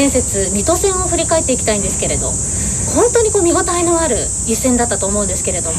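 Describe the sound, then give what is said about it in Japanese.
Cicadas sing loudly, a steady, shrill high buzz that runs unbroken throughout beneath people talking. “セミの声が結構大きいっていうのはちょっと注意して、シャバシャバ言ってるのがセミの声っていうこと です。”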